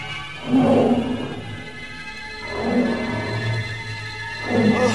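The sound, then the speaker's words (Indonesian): A tiger roars as it approaches, in three drawn-out, low rumbling swells separated by short lulls. Deep and throaty, moderately loud, with no voices. “Sementara harimau itu terus mendekatinya.”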